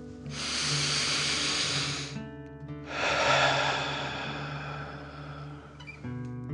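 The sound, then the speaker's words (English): Deep breathing in and out during a children's dragon-breath exercise: two long, airy, hissing breaths, each lasting a couple of seconds and separated by a short pause. “And then breathe out, pretending fire is coming out of your mouth. Ready? Breathe in and out.”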